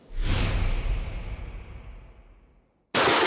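Rifle shots at a shooting range: a loud, sharp blast whose ringing tail fades slowly over a couple of seconds, then a second abrupt, loud shot at the very end.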